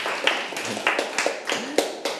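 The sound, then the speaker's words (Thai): Classroom students clap for their classmates: a sparse run of sharp, fairly evenly spaced claps, several hands rather than a full burst of applause. “โอ้โหสุดยอดมากครับปรบมือให้เพื่อนหน่อยครับ”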